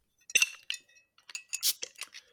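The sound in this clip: Bottles of Midtfyns Bryghus wit beer with special caps being opened: a few sharp glassy clinks and metallic cap rattles in quick bursts, faint and irregular, without talk.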